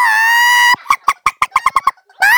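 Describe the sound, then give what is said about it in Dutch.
White chickens cackling loudly: a drawn-out, honking squawk, then a quick run of short, sharp clucks, with another long squawk starting at the end. “Begonnen de kippen uit luid protest te kakelen.”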